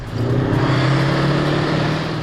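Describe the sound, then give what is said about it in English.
Heavy engine rumble from a Warrior armoured vehicle driving laps around an arena at a Tankfest event in Dorset: a steady, loud, low-pitched drone that holds constant throughout, with no voices. “Opening the annual Tankfest celebration in Dorset, Warrant Officer Behari drove laps around the arena in his old workhorse Warrior.”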